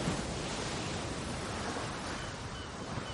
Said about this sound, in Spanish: Una ola moja a Vladimir que sigue arrodillado en la playa de Korsun.